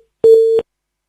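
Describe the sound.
A telephone busy tone sounds as a phone call cuts off: one short, steady mid-pitched beep lasting under half a second, alone and followed by silence.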